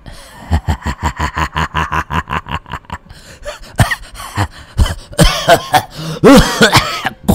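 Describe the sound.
An old man's coughing fit, performed by a voice: a run of many rapid, evenly spaced cackling bursts, then loud, raspy, irregular coughs and throat-clearing hacks.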